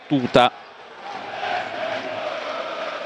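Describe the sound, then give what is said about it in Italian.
The home crowd at a Venezia football match keeps up a steady wash of whistling and murmur after a brief spoken word at the start. “come sentite negli effetti di fondo con i fischi del pubblico di casa”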